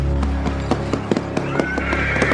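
A ridden horse on a journey by road trots with steady, regular clip-clopping hoofbeats, while a high whinny rises near the end.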